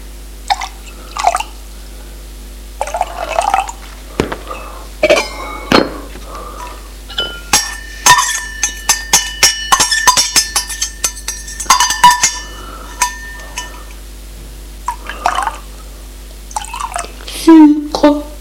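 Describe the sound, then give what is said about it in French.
Steaming hot chocolate is poured and served, with light liquid drips and several sharp clinks of crockery among spoken narration. “Et elle commence à servir le chocolat fumant, bouillant.”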